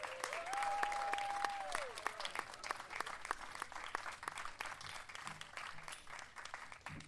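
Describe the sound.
Audience applause welcoming two special guests at a morning event at People's Light: sustained, dense clapping from a crowd that continues steadily and eases slightly toward the end.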